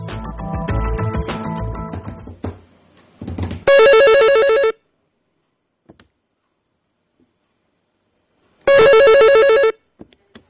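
A telephone rings at the start of a recorded phone call: two long, loud electronic ring bursts separated by several seconds of near silence, following a dense stretch of other sound at the opening.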